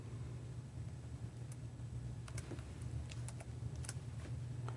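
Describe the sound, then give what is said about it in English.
Faint keystrokes as a search term is typed on a computer keyboard: a few light, scattered clicks over a steady low hum and hiss. “So then we type that in”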